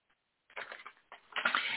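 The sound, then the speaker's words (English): A sheet of paper is grabbed and handled, a short burst of dry rustling and shuffling that starts after a brief silence and grows louder toward the end, with no voices. “So I'm going to grab me a piece of paper here.”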